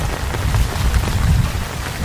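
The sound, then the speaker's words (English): Torrential rain pours down during an unusually fierce storm in a flooded forest, a dense, loud and steady roar of drops with a heavy low rumble and no pauses. “The rain here can be torrential, and although storms normally pass quickly, this one is clearly not a normal storm.”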